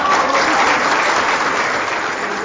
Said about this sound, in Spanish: este merecido aplauso.